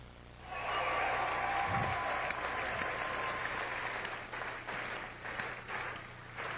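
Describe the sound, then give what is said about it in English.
Sustained crowd applause honors a 2004 state championship high school team, many hands clapping in a steady, full roar that holds at an even level throughout. “Ladies and gentlemen, please give the 2004 state championship team a Tiger round of applause.”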